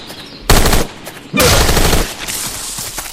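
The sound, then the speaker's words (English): Assault rifle gunfire in a video game: two loud, rapid automatic bursts, the second longer than the first, followed by a lower rumbling tail. “Assault rifle. 8 ammo remaining in this clip, and 1 clip's left.”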